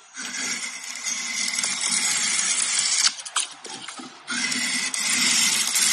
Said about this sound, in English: you take this curved blade, you extend your arms, you put it down on the wood, then you pull the blade towards you.